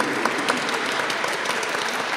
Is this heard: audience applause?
yes